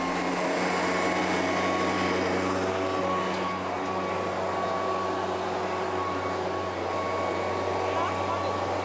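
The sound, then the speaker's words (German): Air blower roaring steadily as it blasts debris such as peanut shells off a rock, one continuous loud whoosh with a constant hum running through it from start to finish. “Der Püster ist nix für Anfänger.”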